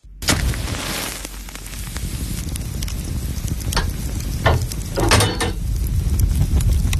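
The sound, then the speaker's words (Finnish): Sausage sizzling on a hot sauna stove: a steady, dense frying hiss full of fine crackles and pops, with a few louder bursts later on and no talking. “Lempeä löylyinen saunan kiuas. Katsokaas, kun pappa laittaa kiuasmakkaran paistumaan.”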